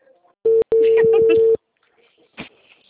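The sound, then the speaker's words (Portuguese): Ringback tone of an outgoing phone call: one steady mid-pitched tone about a second long, with a brief break near its start, a voice talking over it, and a short noise afterward. “Tá dando caixa postal. Ah, agora chamou.”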